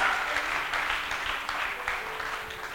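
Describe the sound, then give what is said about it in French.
An audience applauds during a worship service, acclaiming God, a sustained rattle of many hands at a moderate level that swells slightly in places and carries on without a break. “Non, acclame Dieu pour Jésus.”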